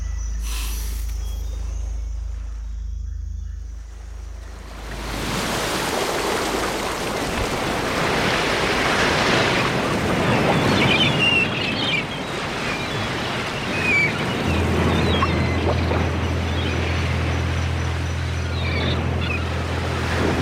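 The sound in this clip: Waves washing on water in a bay, a steady rushing wash that swells in after a low hum at the start and continues without a break, with a low hum returning underneath near the end.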